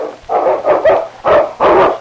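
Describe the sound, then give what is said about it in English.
A large dog barking in a dramatized rescue scene at icy water, giving a few loud, deep barks in quick succession with short gaps between them. “The great dog hesitated only a second before leaping into the icy water.”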